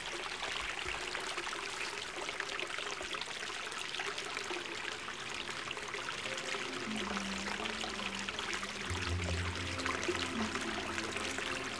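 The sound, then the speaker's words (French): Water gurgling and running in a steady, continuous wash, with low bubbling tones emerging more clearly in the latter part. “J'aime le gloussement de l'eau.”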